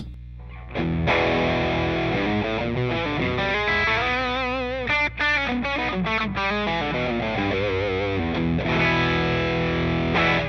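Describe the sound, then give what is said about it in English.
Electric guitar played through a distortion pedal built around an LM833 op-amp chip, giving a loud, thick, saturated tone. It plays sustained chords and riff phrases alone, with no talking. “LM833. It's kind of a popular chip. I think it's in like the Shredmaster. What was it? The MI Audio Distortion. Crunch Box.”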